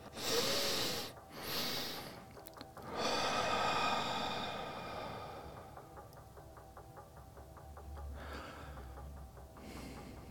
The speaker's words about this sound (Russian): Сделаем вдох, э, двойной выдох.